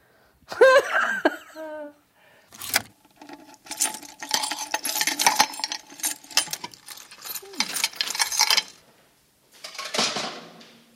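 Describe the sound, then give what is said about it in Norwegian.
Rustling and scraping as a large cardboard box is pulled out of a brown package, in irregular bursts of crinkly handling noise, with a brief vocal sound near the start and short pauses between movements. “Da tar jeg ut en stor pappeske. Gud, så mye. Visste ikke at den var så stor.”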